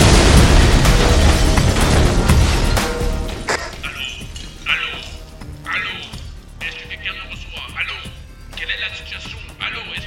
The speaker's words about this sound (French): Putain de bombe artisanale! Il a fait des putains de bombes artisanales!